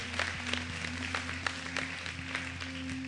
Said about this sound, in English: Let's give it up for everybody joining us today, church, at all of our locations.